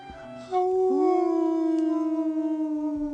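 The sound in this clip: Voices howl in imitation of beasts at the door of a radio station: a long, sustained harmonic howl that starts abruptly, lifts briefly in pitch, then holds steady with a slow waver as it gradually fades.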